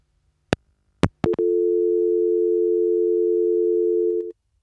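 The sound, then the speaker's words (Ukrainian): Telephone line sounds as a caller is being connected: a few sharp clicks, then a single steady low hum-like tone that holds evenly for about three seconds before cutting off abruptly. “розкажу це пізніше, бо у нас є дзвінок. Давайте спробуємо почути людину.”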